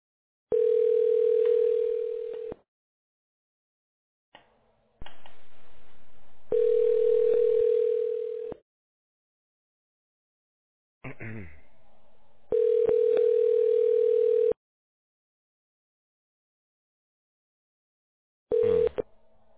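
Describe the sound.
Steady telephone line tone heard while placing a call to leave a voicemail. It sounds in about four evenly spaced bursts of roughly two seconds each, separated by silent gaps, with a few brief clicks and a short burst of other noise between them.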